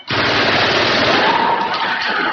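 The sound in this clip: A gun firing on command during a military demonstration, ejecting hot empty cartridges as it shoots. The fire is one loud, dense, unbroken burst that lasts the whole clip, with no talk over it.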